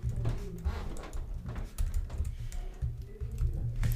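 Rapid key clicks sound as CSS code is typed on a computer keyboard. Many quick, uneven taps come in bursts and short pauses, with no voices over them.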